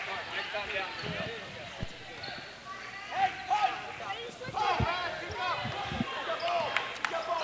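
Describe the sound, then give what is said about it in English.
Repeated thuds of a basketball dribbled on the court during a Parkwood basketball game, bouncing steadily under a commentator's continuous talk and crowd noise. “Gaithier into the front court with that dribble.”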